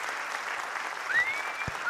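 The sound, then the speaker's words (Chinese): Applause from a crowd: dense, steady clapping that holds an even loudness for about two seconds, with a brief low thump near the end. “今天掌声我拢有收到哈”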